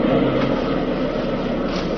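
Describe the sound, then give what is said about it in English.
A car reverses out through overgrown hedges. Its engine gives a steady, broad rumble that holds evenly for the whole two seconds, with no voices. “Darn hedges. Like backing the car through a jungle.”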